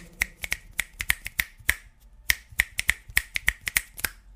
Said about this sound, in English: That was me snapping my fingers.